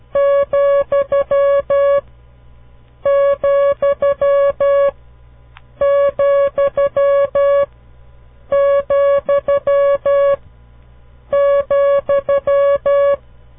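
Morse code tone keying the comma: a steady mid-pitched beep sounded as five separate repetitions of the same pattern of long and short pulses, each group separated by a brief pause.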